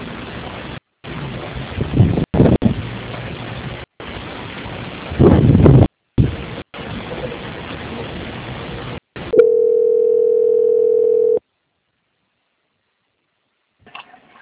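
A steady mid-pitched telephone line tone sounds for about two seconds while a bank call is transferred, after a stretch of rough, crackling line noise broken by short dropouts, then silence.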